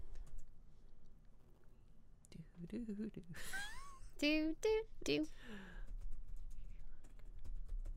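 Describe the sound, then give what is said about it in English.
Typing on a computer keyboard while someone looks something up: soft, scattered key clicks under people talking and whispering, with a few high, sliding vocal sounds over the tapping. “Type in as he looks this up.”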